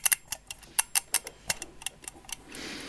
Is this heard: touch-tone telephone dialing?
no